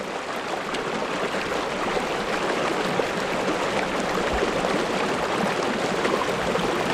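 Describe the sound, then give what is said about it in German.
A small river flows in the hinterland of Nice in southern France, giving a steady, even rush of water with no pauses and no voices. “Das, was du hier hörst, ist der Loup-le-Loup, ein Flüsschen im Süden von Frankreich, im Hinterland von Nizza.”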